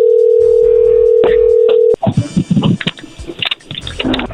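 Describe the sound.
A steady telephone dial tone hums for about two seconds, broken by a couple of clicks, then gives way to a cluster of short, uneven dialing sounds as a number is dialed.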